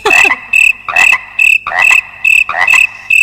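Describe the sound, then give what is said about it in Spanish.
Frogs croak in loud, regular pulses, many short rasping calls with bright, ringing overtones repeating at an even pace, and no voices heard. “Es que vienen acompañados de las ranas porque están flipando.”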